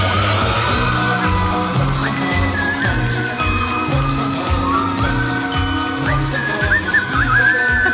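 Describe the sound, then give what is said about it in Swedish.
A person whistles a tune in short, gliding high phrases over steady music with a pulsing low beat, the whistling fairly faint beneath the music. “Vem är det som visslar? Är det dansk?”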